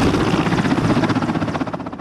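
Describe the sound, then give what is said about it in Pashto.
An Afghan national army helicopter's rotor gives a loud, continuous, rhythmic chopping throb that fills the short clip with no talk. “د ملي اردو په هلیکوپټر کې د 215 میوند کل اردو قرارګاه ته راغله.”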